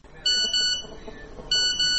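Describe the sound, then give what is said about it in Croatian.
Phone message notification beeps arriving early in the morning and waking someone: bright, high electronic beeps in two short clusters separated by a pause, sharp and clear over quiet background. “Budi me poruka.”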